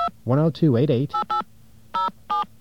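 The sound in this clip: Telephone keypad dialing tones: a brief voice is heard first, then four short, clean dial beeps at uneven intervals with quiet gaps between.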